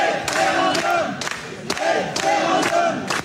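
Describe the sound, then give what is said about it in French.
Some 350 residents of Rantigny in the Oise shout "référendum" in unison at data centre developers in a municipal hall, a loud rhythmic chant repeating in steady bursts. “Dans cette vidéo, enregistrée dans une salle municipale le 19 août dernier, vous entendez 350 habitants de Rantigny, dans l'Oise, crier référendum face aux promoteurs”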